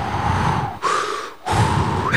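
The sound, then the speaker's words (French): Deep, calm breathing during a relaxation exercise comes as three long, loud, rushing breaths with brief gaps between them, harsh and airy like wind. “Respirez ensuite calmement et profondément. Ça donne ça à peu près.”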